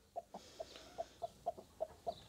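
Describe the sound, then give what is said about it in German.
Broody foster hens cluck softly in nest boxes, giving a steady, evenly spaced series of short, low clucks over a faint hiss. “Christine hat extra Eier in die Boxen gelegt, damit die Ammen ihr neues Umfeld schneller akzeptieren und in Brutlaune bleiben.”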